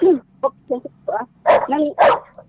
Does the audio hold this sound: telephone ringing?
no